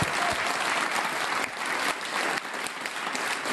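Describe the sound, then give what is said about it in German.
Audience applause at the close of a live event, honoring the hosts. Dense, continuous clapping keeps a steady, fairly loud level for several seconds, with only slight dips and swells. “Auch für sie noch einen super Applaus, weil sie machen es so.”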